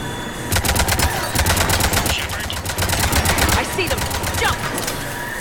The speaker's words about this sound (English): What's that noise? Gun, get down!